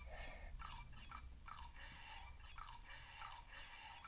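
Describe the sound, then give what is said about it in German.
A video game character eating in a sword trial level: faint, rhythmic wet chomping and crunching, with many quick bites in a steady pattern. “Naja, ah ich wollte was essen.”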